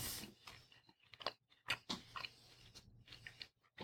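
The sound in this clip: Chewing on a bite of beef steak that has been sitting out and turned chewy: faint, irregular wet mouth noises and soft crunches, many small bursts with short pauses between them.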